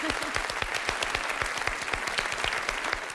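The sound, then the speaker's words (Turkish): Audience applause on a quiz game show, many hands clapping in a dense, continuous stream of sharp claps, loud and even from start to finish. “Alkışlıyoruz.”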